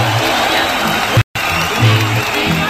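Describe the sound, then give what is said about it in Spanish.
Applause sound effect of an audience, a steady wash of dense clapping that drops out for a brief instant midway, then resumes at the same level. “Aplausos de público, vamos a dedicarle. Venga, aplausos allá, de sí. Público.”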